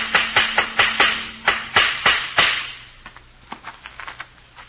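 A hammer drives nails while a sign goes up outside a house. Many sharp, evenly paced blows land over a faint hum, then give way to softer, lighter taps.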